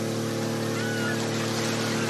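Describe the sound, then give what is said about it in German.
A motorboat with a 200 hp outboard motor races across the Alster, a loud, steady engine drone blended with rushing water noise that holds constant throughout. “Und, boah, da kommt ja einer angerast. Wer ist, was ist das denn?”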